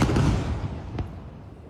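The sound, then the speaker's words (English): A deep roaring boom from an Israeli airstrike on a residential building near Al-Aqsa Hospital in Deir al-Balah, central Gaza, rumbles loudly and slowly fades, with a sharp crack partway through. “This is the moment Israeli fighter jets struck a residential building near Al-Aqsa Hospital in Deir al-Bala in central Gaza.”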